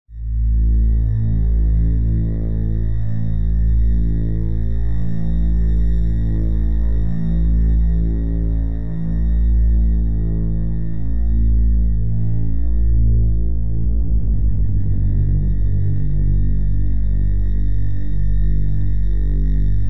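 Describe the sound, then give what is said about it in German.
A synth bass patch built in Serum with bitcrusher downsample distortion holds a loud, sustained buzzy tone rich in harmonics; its texture shifts partway through, with no voices. “hier habe ich mir wieder so ein Bass-Sound zusammengebaut in Serum, der so eine Downstamp, ja, ich glaube, das war sogar das, was du vorher ganz am Anfang gesagt hast, mit dem Bitcrusher.”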